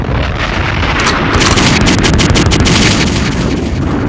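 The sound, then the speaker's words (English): A bomb drop sound effect for a track bursts out as loud, dense explosive noise, with crackling, booming blasts packed together and sustained for about four seconds. “Need another drop. I need another bomb for this shit.”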